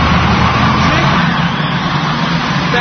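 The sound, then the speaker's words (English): A Camaro drives off, its engine and road noise forming a loud, steady rumble that holds without a clear rise or fall. “That car is sensitive. I mean, $4,000 just drove off.”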